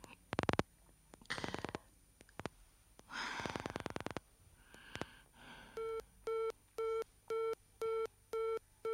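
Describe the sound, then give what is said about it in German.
A telephone busy signal sounds after an operator puts through a call to a number: clicks and short bursts of noise come first, then a steady run of evenly spaced, identical beeps repeating in a regular on-off rhythm. “Die Nummer ist besetzt.”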